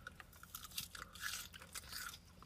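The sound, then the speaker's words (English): Crunchy chewing as someone eats fries, many close, uneven bites and mouth sounds running steadily with no talking. “I don't want to rush these fucking fries. Well, you gotta eat something.”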